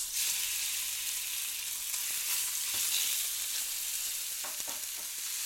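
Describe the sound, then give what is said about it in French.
Merguez sausages fry in a pan with a steady, bright sizzle, broken now and then by a few faint clicks and stirring sounds. “Sur la recette de Jean, il y a marqué qu'il faut cuire les merguez dans une poêle”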